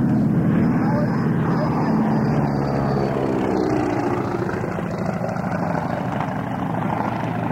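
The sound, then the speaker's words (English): A steady, droning propeller-engine roar from the Howard racing aircraft and Mr. Mulligan making a flyby. The loud, continuous engine noise stays nearly constant throughout. “now we're going to have a flyby by the Howard and a Mr. Mulligan. So that'll be the next thing we hear.”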